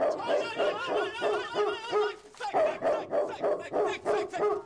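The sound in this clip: A dog barks and yips in a quick, rhythmic series of short, bright, tonal calls. The calls pause briefly near the middle, then carry on at the same pace.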